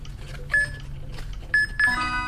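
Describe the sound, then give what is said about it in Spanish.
A sonar-style detecting device beeps while searching, giving a few short, high, steady electronic tones spaced unevenly, with the later beeps closer together, over a low background rumble. “Cuando está buscando, ese sonar va a sonar. Cuando encuentre algo parecido que le suena, va a sonar más rápido.”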